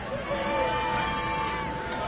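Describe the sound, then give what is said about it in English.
Home crowd roar at a college football game, George Washington hosting Princeton, a broad, steady wash of cheering and hubbub beneath a voice talking over it. “Home crowd coming alive again.”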